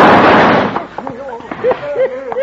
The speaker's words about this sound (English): Gun them down, men.